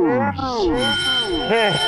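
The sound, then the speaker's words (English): A bell rings steadily, rung by a line cook at a restaurant kitchen expo line, its thin high tone running under a lively voice throughout. “While maniacally laughing and ringing the bell.”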